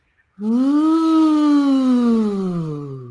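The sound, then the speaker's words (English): Buzzy lip buzz against a finger, like blowing a kazoo, done as a voice exercise: one sustained, steady humming tone that slides slightly upward, then glides gradually lower as it fades. “And when you do that, I'd like you to use just kind of a little buzzy sound, almost like you're blowing through a kazoo. So it'll sound like this.”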